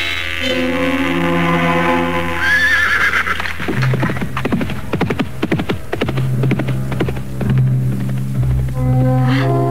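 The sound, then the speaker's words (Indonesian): A horse being ridden gives a loud whinny, then its hooves clatter in a quick run of sharp hoofbeats. Another shrill neigh rises near the end. “Orang yang menunggang kuda itu seperti Nyai Kolot.”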